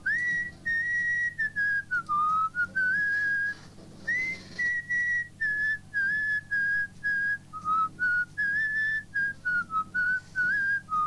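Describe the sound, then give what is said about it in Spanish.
A person whistles a pop song melody in a clear, pure tone, phrased in short bursts with brief pauses, with no other sound alongside. “Y este es su silbido.”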